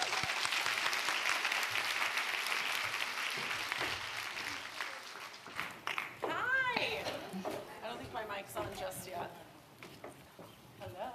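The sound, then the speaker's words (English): Dense, steady audience applause welcomes a speaker at a talk session. The clapping fades after about five seconds as a voice begins speaking. “let's put our hands together and welcome Maxie McCoy”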